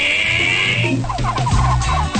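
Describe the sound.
Turkeys gobble in a short burst of rapid, warbling calls.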